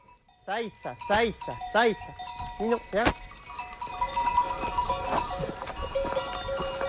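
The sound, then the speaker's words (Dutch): Sheep bleating and bells clanking as a flock of 75 sheep climbs a mountain in eastern France. Several wavering bleats come early, then a steady jangle of bells and hoof clatter continues. “Loop in Oost-Frankrijk in de bergen achter een kudde van 75 schapen die omhoog klimmen.”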